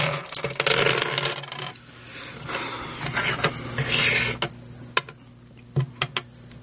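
Dice clattering across a table during a tabletop board game, with two players rolling four dice each: a busy jumble of small hard clicks and knocks that thins out into a few sharp, separate clacks.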